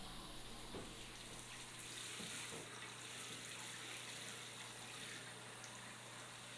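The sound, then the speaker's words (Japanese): Warm water pours over a person's neck and back in a steady, continuous rush with a soft splashing hiss that stays even throughout, with no talking. “お湯の温度はこれくらいで大丈夫かな。 では、首あたりから流していきますね。”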